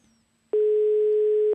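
A telephone call rings unanswered, heard as the caller's ringback: one steady mid-pitched electronic tone lasting about a second. It sounds alone, with near-quiet before and after.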